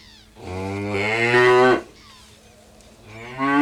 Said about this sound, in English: Number one was a cow.